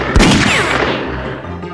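Gunshots in a video game: one sharp, loud blast near the start, followed by dense, sustained, noisy game sound that slowly fades.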